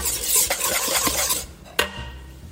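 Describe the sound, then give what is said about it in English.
Whisking lemon juice and black pepper gives a soft, busy scraping swirl of quick strokes at a quiet level, which thins out before a single sharp clink near the end. “Okay, so whisking.”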